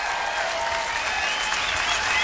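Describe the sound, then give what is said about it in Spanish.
Crowd applause, a continuous, even patter of many hands clapping at steady moderate loudness from start to finish. “Güey, esa es una gran solución. ¡Aplauso!”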